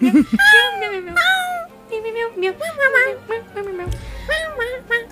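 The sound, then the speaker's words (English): A human voice imitates a cat with a long string of drawn-out meows in quick succession, each sliding up and down in pitch, loud and close. “Meow meow meow meow meow meow meow meow meow meow meow meow meow meow meow meow meow”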